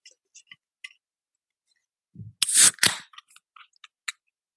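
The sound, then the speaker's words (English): A beer can is opened right at the microphone: a few faint, light clicks, then a sharp crack and a brief burst of hissing that quickly fades, followed by a few more small ticks. “I'm going to open up this can at the mic so that we can get the ASMR sounds fully fledged.”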